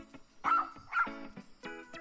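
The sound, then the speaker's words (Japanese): Curly-coated dog barking in a few short, high yips. The two loudest come early and softer ones follow. “ほらほら、君の方を見てるよ。このワンちゃん、どんな顔をしてる？どんな色をしてるかな？”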